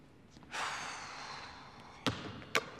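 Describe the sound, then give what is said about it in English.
A basketball is thrown hard at a backboard, producing two sharp, separate thuds after a soft rushing swell. It is faint overall. “Kyle takes a shot and misses. With a frustrated expression, he picks up another ball and hurls it at the backboard.”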